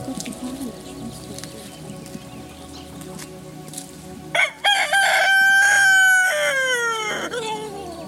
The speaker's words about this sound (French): On va voir les petites poules.